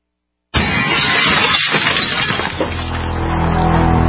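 Window glass smashes in a home break-in: a sudden, loud crash bursts in after a moment of silence, then a dense spray of shattering and splintering continues before settling into a lower, rumbling tail.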